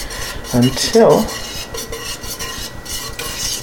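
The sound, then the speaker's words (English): A whisk stirs eggnog in a large pot on a stove burner over medium-low heat, making a steady rhythmic scraping with a few brighter metallic clinks near the start. “And it's a pretty large pot, and I just want to keep whisking”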